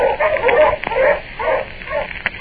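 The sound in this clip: Hunting dogs, pointers, barking as they head into the woods: a few rough, mid-pitched barks in uneven bursts, with a sharp yip near the end.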